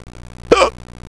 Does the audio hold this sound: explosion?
no